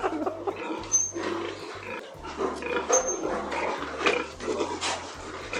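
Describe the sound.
Young farm pigs fed compound feed give faint grunts and snorts, with a few brief high squeals, over a low steady hum.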